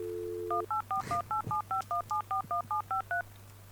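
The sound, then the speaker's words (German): A telephone number is dialed: a steady dial tone gives way to a rapid, evenly spaced series of many short touch-tone beeps, each a clear two-tone chirp over a faint low hum. “Hast du beim Spoiler-Talk angerufen?”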